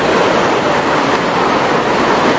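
Heavy rain falling on people sitting outdoors, a loud, continuous, dense hiss that holds steady throughout without breaks.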